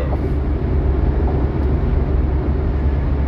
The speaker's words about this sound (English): I'm on the freeway, so it's going to have a lot of background noise